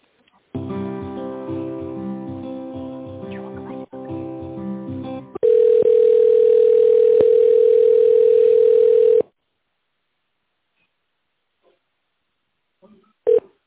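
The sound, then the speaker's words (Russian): Telephone line tones play while a call is transferred to a company's tender department: several seconds of rich, tonal sound, then a long steady mid-pitched tone of about four seconds, then silence and a brief blip at the end. “Одну минуту, сейчас переведу вас в тендерный отдел.”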